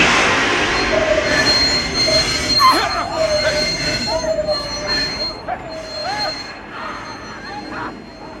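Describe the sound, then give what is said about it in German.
Train wheels squeal as a passenger train's emergency brake is pulled, a loud, shrill, wavering metallic screech that rises and dips over a steady rolling rumble, then gradually fades. “Sobald ich jetzt sage, in dem Augenblick, ziehen Sie die Notbremse.”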